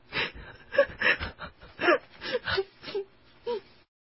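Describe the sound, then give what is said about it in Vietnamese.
A woman crying, with a faint run of wavering wails and sobbing moans in uneven bursts that end in a short silence. “Bây giờ bà khóc thiệt, nước mắt tuôn dầm về”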